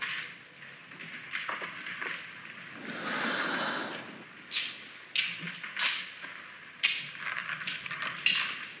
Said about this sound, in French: Un moment de silence. Il inspire.